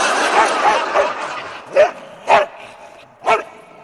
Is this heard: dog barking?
yes